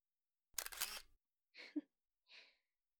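Camera shutter taking a photo, a short sharp mechanical burst followed by two fainter, briefer clicks, three quiet separate sounds in all with nothing else heard.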